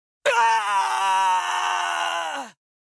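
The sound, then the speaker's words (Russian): An agonized wail rises from creatures struck by a wave of red-blue flame sweeping a narrow street: one long, sustained, strongly voiced cry that holds steady for about two seconds before tailing off. “Крики мучений огласили округу, давая понять, что удар попал в цель.”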